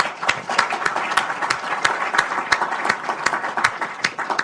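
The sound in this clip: Applause welcomes a speaker at a Brookings event: many hands clap in a steady, dense patter, with a few sharper individual claps standing out throughout.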